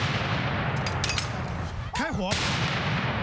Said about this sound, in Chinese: 一声令下，美国维吉尼亚州陆军国民警卫队21世纪最新型的 M119A3 榴弹炮迅速发射，巨大的声响及震动让在场参观的民众纷纷捂住了耳朵。